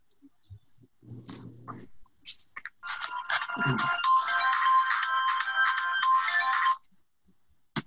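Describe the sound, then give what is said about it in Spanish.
A phone ringtone plays as a bright electronic chirping melody for about four seconds and then cuts off. Faint rustling and clicks come just before it. “Perdón, me estaban llamando”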